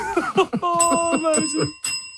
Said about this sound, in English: I hear the bell